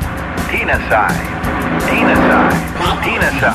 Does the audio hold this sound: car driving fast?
yes